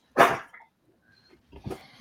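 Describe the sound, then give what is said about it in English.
Dogs barking, the speaker's own pet dogs: one loud, sharp bark, then after a pause a second, softer bark with a faint trailing yelp. “No, these are my dogs.”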